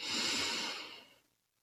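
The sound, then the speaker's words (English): One deep, slow breath, a loud airy rush of air that is strongest at the start and then fades away to silence within about a second, heard alone with no talking. “I want you to start by taking a deep breath in”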